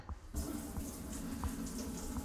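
Tap water running from a faucet into a drinking glass: a steady, even rushing stream that begins after a brief quiet moment and continues unbroken to the end.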